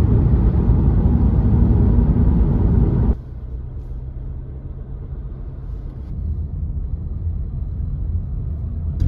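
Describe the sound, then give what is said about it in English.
A car is driving to Dublin in heavy morning traffic. A loud, broad road roar drops abruptly to a quieter, steady low engine and tyre rumble, with no voices. “Traffic this morning now was terrible compared to yesterday morning.”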